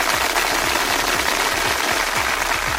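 Audience applause at a quiz show, a steady wash of dense clapping that holds evenly throughout with no talk over it.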